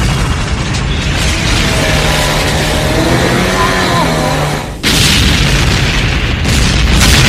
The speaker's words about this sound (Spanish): El remolque explota y todos se aferran en el bote salvavidas.